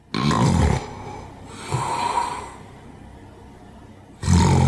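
A person snores heavily. A few loud, rasping, rough snores come with quiet pauses between them, and a softer breath falls in the middle.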